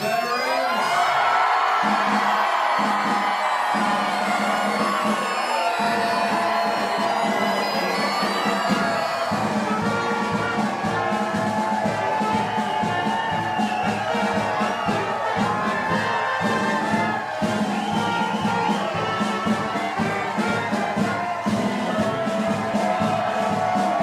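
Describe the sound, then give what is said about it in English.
A crowd cheering to welcome veterans home: a sustained, loud roar of cheers, whoops and shouts from many voices that holds steady without a break for the whole stretch. “moment just through what it sounded like in welcoming these veterans home. Welcome home.”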